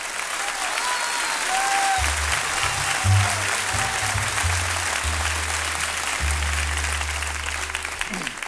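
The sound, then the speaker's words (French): Ovation from an audience welcoming a singer's return to the stage: dense, sustained applause that stays loud and even from start to end. “il est accueilli par une véritable ovation”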